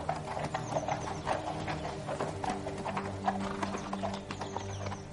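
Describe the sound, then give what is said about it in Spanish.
Horse hooves clip-clop steadily in a courtyard as a rider turns the horse and rides away, with many even, moderately loud hoof strikes continuing throughout. “Kat mira a Ned desde su caballo, gira y se aleja tras Roderick.”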